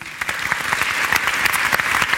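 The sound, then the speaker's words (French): Audience applause welcoming a sleep researcher as he is introduced on stage: a continuous wash of many hands clapping, steady and fairly loud throughout, with no talk. “Je vous demande de l'accueillir, c'est le chercheur Claude Gronfier.”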